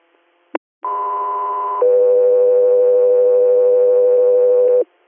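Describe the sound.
Two-tone radio dispatch alert for an air medical crew on an inter-hospital call: a short click, then a steady higher tone for about a second, followed by a longer, lower steady tone of about three seconds, loud and alone.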